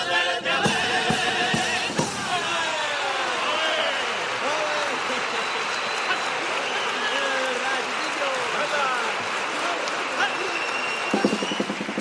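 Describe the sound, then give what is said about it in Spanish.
Audience applause in the Gran Teatro Falla for a carnival comparsa after its set of couplets, dense, sustained clapping from a large crowd that stays loud and even throughout. “pues ahí quedó esa tanda de cuplés, pisando fuerte esta comparsa también sobre las tablas del escenario del Gran Teatro Falla. El público así se lo reconoce”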